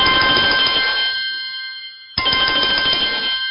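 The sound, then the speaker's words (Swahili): An ordinary standard phone ringtone on an Apple phone gives two bright, bell-like bursts of ringing. The second burst starts right as the first fades, and no voices are heard. “Hii ni aljaras al-aadi, ni kengele ya kawaida, hii haina tatizo.”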